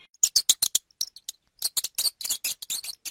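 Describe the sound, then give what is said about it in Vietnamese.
Rapid high-pitched mouse squeaks, many short chirping bursts in two quick runs separated by a brief pause. “Nàng ta nghe đâu đấy có tiếng chuột chít thì phải.”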